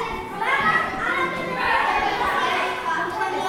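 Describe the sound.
Noisy schoolgirls chattering in a classroom at a school in Medellín. Many young voices talk and call out over one another in a steady, lively babble that does not let up.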